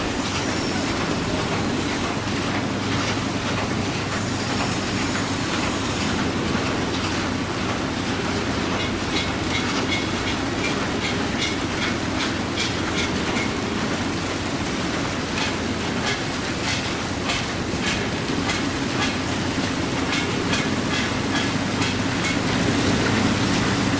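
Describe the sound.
A train rolls along its rails in a steady, unbroken rumble with rhythmic clickety-clack and a broad hiss that holds an even loudness for the whole stretch, with no voices.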